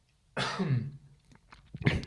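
Coughing from a person with a cold: a harsh, drawn-out cough followed by a brief pause and a second short, sharp cough, fairly loud with no speech.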